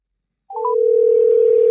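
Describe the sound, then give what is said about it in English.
A telephone dial tone sounds as a call is placed to a guest. After half a second of silence, a few brief chirps give way to a loud, steady single-pitched tone that holds unbroken to the end. “We got the last guest on deck. Yeah, let's go ahead and dial it up.”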